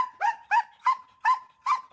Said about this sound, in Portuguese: São cães com extrema energia, sempre disponíveis para trabalhar.